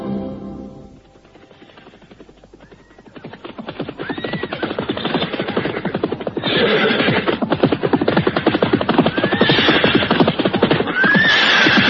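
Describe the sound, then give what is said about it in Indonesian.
Horses neigh as riders set off. Dense, rapid hoofbeats build and grow louder, with a few whinnies rising over the clatter. “Ayo, ayo kita jalan lagi. Dan kau, Ayu, kau berkuda paling depan sebagai penunjuk jalan.”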